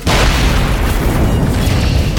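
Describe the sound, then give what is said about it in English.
An explosion erupts as an energy bolt strikes a jeep, a loud, deep, continuous roaring blast that bursts in at the start and rumbles on at full strength without a break. “One of her random force bolts struck a Jeep.”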